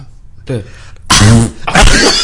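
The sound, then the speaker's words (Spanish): A person coughs a few times in short, harsh, breathy bursts, loud and rough, mixed with voiced, throaty sounds. “A ver, yo toso.”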